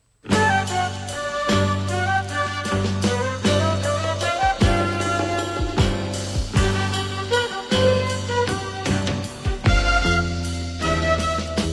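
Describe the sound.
Music from a 1974 studio album recording: a full band playing a steady rhythmic groove with a prominent low bass line and percussion, loud and continuous, with no singing.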